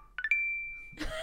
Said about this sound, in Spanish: Es como de que hiciste un match.